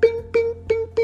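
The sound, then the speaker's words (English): A voice imitates the careful tiptoe footsteps of a sneaking character with four evenly spaced, sung "bing" syllables on the same pitch, each a short, bright note in a steady rhythm. “That was the sound of his tiptoes as he walked over carefully.”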